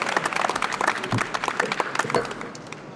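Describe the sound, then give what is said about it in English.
Studio audience applause welcoming a pastor onto a talk show, dense, steady clapping from many hands that continues throughout without any talk. “Let's say give her a warm welcome.”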